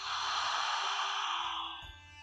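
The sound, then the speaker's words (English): A slow, deep breath drawn in during a guided relaxation exercise, a soft, steady airy hiss lasting under two seconds before it eases off. “Drawing the breath in one more time.”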